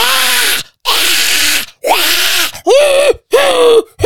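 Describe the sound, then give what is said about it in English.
A voice imitates a howler monkey screech in five loud, strained, hoarse bursts with short gaps between them. The later calls turn more tonal and wavering. “First, I start with a low-key howler monkey screech.”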